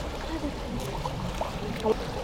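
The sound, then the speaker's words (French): Gentle water sounds from water being recorded outdoors: a soft, steady wash and lapping with a few faint trickles and splashes scattered through it, low and even throughout. “J'enregistre le son de l'eau.”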